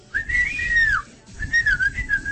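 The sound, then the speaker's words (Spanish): A person whistles to call a dog at the gate of a gated community, producing two clear, loud whistles: a long, bright sweeping tone, then a second, wavering, warbling one. “Al segundo silbido aparece Pete. A los chumbazos viene o viene ladrando desde la otra cuadra”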